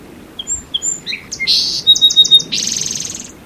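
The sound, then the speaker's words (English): Song sparrow singing: a few clear, high introductory notes, then a quick series of repeated notes ending in a buzzy trill, loud and alone. “song sparrow”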